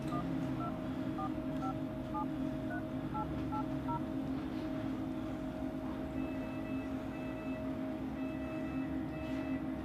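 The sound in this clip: A mobile phone in a hospital dials out with a quick series of keypad beeps at varying pitches, then a repeating ringback tone for an unanswered call, all over a steady low rumble.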